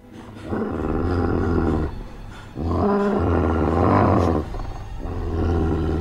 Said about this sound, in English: The dog leaps through the window, knocking over Noah. It stands before Sarah.